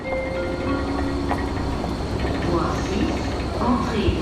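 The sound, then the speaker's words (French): Train station ambience at Lausanne station, where crowds move through a large renovation site: a dense, steady wash of rail and crowd noise with indistinct voices and scattered clatters throughout. “Bienvenue à la gare de Lausanne.”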